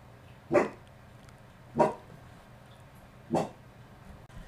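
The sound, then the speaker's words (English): A dog barks indoors three times, each bark a short, sharp burst separated by pauses of over a second, with no voices around it. “sorry for the dog barking in the background. She was barking at nothing.”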